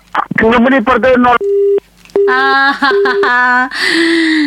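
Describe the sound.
A steady low electronic busy tone pulses on and off after a telephone call is cut off, with bursts of harmonic, voice-like sound before and around the tone.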